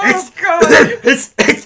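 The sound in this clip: A voice imitates coughing and throat clearing, as if flaky pastry is tickling the throat: several short, rasping voiced bursts in quick succession, loud and close together.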